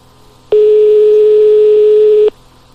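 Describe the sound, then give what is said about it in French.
A telephone line tone sounds on a call placed to a discotheque: a single loud, steady electronic beep held at one pitch for nearly two seconds, starting and stopping abruptly against a faint background. “on appelle le club discothèque. Ça s'appelle le Gay Club.”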